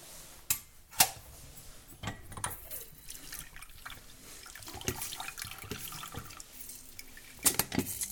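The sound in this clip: Tap water runs steadily over fruit being rinsed in a sink, a continuous splashing rush broken by a few sharper knocks and clatters. No voices are heard.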